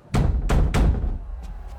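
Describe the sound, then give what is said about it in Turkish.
Three heavy, loud bangs on a door in quick succession, followed by two fainter, sharper knocks. “Aç şu lanet kapıyı. Ya merhaba Nicky. Ya dostum, gürültü için kusura bakma ya.”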